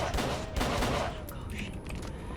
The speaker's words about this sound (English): Let me shoot this guy in the mouth. Take him down!